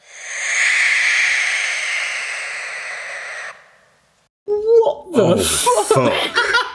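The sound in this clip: A barn owl's call: one long, harsh, hissing screech lasting about three and a half seconds. After a short silence, voices break in with talk and laughter.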